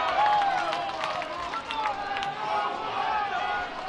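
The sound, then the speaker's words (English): Lively crowd noise at a Friday-night baseball game in downtown Fayetteville: a continuous murmur of many voices with scattered shouts, steady throughout. “Still a lively crowd, though, on this Friday night.”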